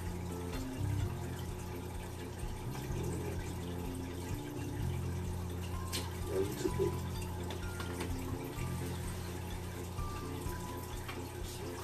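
Water running steadily from a tap, an even, continuous hissing wash over a low hum that holds the same level from start to finish.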